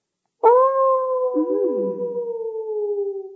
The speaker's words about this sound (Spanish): aullaban los lobos del monte